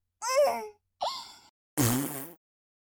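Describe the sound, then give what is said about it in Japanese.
Three farts in quick succession: two short rasping ones, then a longer, deeper, buzzing third one, each cut off by brief silence. “お尻に顔をうずめられてのおならは？”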